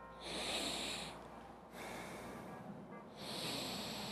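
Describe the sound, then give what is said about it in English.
Air drawn in through the left nostril, heard as three soft, airy, hissing breaths separated by brief pauses, the middle one duller than the others. “I'm gonna breathe in through my left nostril.”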